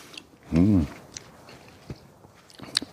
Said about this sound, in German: Lecker Brombeeren. Brombeeren.